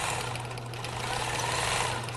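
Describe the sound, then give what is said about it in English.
A shop sewing machine stitches Greek letters onto a sorority sweatshirt. It gives a steady, continuous mechanical whirring hum with a fine rattling texture throughout. “sits at the shop sewing machine, attaching Greek letters to a sorority sweatshirt.”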